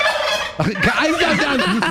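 A turkey gobbles in a loud, fast, throaty warbling rattle that lasts about two seconds, heard alone without talk.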